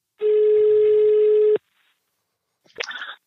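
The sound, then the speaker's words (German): Telephone call tone on an outgoing call: one long, steady, buzzing tone lasting over a second, then a pause and a short, noisy burst at the end. “Lasst mal Toni Groß anrufen.”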